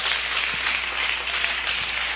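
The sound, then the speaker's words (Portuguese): Congregation clapping hands in praise at a church service, a thick, unbroken wall of applause that stays loud and even through the short stretch. “poder sentar um instante e louvar a Jesus com as palmas.”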